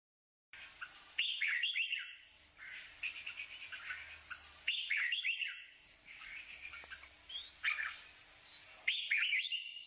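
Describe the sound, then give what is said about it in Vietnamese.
Birds chirp outside a window with many quick, high tweets and a few squawky calls in irregular clusters. The calls are fairly quiet against a still background. “Noãn Tâm bị tiếng chim hót ngoài cửa sổ làm thức tỉnh”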